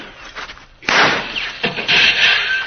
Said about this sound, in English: Perhaps a bullet or two from me will give those hombres something to think about.